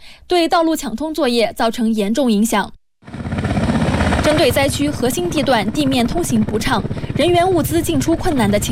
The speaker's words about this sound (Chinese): 昨天西藏军区某路航旅再次出动3批6架次直升机赴吉隆口岸核心区域执行立体支援任务。